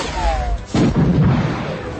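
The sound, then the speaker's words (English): A sci-fi blaster firing, a short falling whine followed by a loud, sharp burst that dies away in a rough rumble. “Murg aimed, fired, and brought down a Sulistan guard.”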